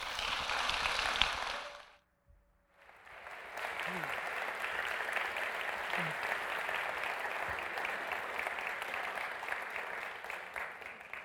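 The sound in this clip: An audience at a service claps to welcome a speaker. The sustained applause fades almost to silence for a moment around two seconds in, then swells back into a steady, even patter.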